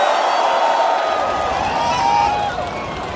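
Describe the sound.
A crowd cheers and whoops to welcome a performer: a dense, steady roar of many voices that drops slightly in loudness near the end.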